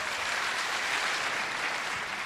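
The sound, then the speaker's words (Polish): Audience applause at the inauguration of the 21st Bydgoszcz Opera Festival, a quiet, steady stream of clapping from many people with no breaks. “Tak, wiem, co znaczą te oklaski.”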